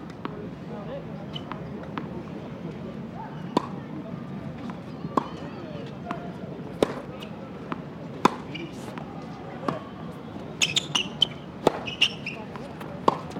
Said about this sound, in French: On les entend, les balles? On entend le tennis? Oui, mais on va se rapprocher du terrain.